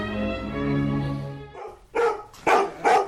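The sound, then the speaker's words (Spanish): Dogs bark in three sharp, loud bursts in quick succession, following a sustained tonal sound that fades out just before the barking. “Los perros de Paplop.”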